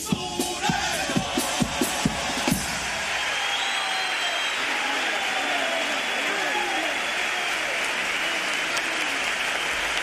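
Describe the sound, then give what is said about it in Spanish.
Theatre audience in Cádiz rising to cheer after a hard-hitting finale: a few loud, sharp beats open, then a sustained, dense roar of applause with shouting voices throughout. “Y ahí ven ustedes la reacción del público con buena parte del patio de butacas y palcos que se ha levantado como un resorte ante ese remate potente de duras críticas al sector”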